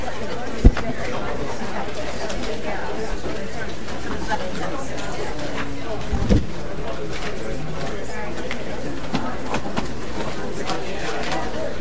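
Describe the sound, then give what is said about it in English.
Murmuring audience chatter as people leave a legislative hearing room, a continuous babble of overlapping voices with a couple of brief thumps standing out. “And audience, if you're leaving the room, please be quiet because we are continuing with our hearing.”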